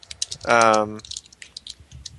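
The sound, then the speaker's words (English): Typing on a computer keyboard: scattered quick clicks and light rattling keystrokes run throughout, briefly overlapped by a short, sustained voiced tone in the middle. “Hold on, I finished typing this and I'll be ready.”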